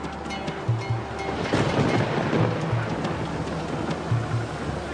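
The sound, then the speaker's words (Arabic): Storm waves crash against a fishing boat at sea, making a continuous, loud rushing and surging roar with a low rumbling undertone and no voices. “العاصفة يا رب، العاصفة. خلاص احنا بنغرق وانت نايم مش حاسس باللي بيحصل.”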